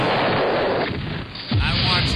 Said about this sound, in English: So I'm gonna go ahead and kill off the Vikings. You're keeping them in? Yeah. Murph, you're gonna kill them off with me? I'm killing them off. Oh, drop the Hiroshima bomb!